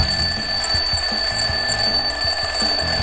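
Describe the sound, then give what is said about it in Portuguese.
An alarm clock rings with a continuous high, piercing electronic tone that stays steady and loud above a rhythmic low thumping beat. “Por que que algumas pessoas colocam o despertador debaixo do travesseiro?”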